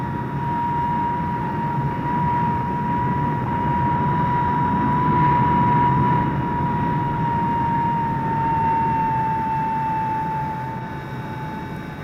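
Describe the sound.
An airplane takes off with a loud, steady, rumbling engine roar and a sustained high whine throughout, easing slightly at the end.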